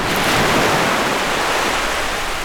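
Sea waves wash along the coast of Brittany in a continuous, loud, hissing rush of surf with some wind noise mixed in, steady throughout and with no voices.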